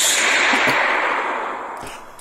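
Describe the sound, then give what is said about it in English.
A gunshot sound effect fired during a game: one loud, sharp burst with a hissing, whip-like tail that fades steadily over about two seconds, with no talk over it. “That's Mike's gunshot.”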